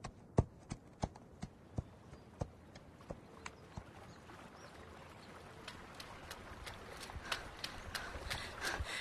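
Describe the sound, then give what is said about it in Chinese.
Hooves of the family horse clip-clop as it is led out. Many sharp, faint clops fall in a steady rhythm, and they grow denser toward the end as the background noise rises. “赶紧把咱们家马牵出来”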